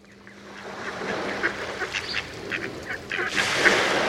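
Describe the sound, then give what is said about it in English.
Migrating mallard ducks quack repeatedly in a front yard on Long Island Sound, with many short nasal calls over a steady outdoor hiss. The calls grow a little louder and denser toward the end. “We leave you this week in a front yard on Long Island Sound. Migrating mallards usually find their meals during stopovers in coastal marshes.”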